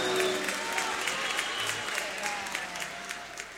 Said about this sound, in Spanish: Aplausos para los hijos, los barrios.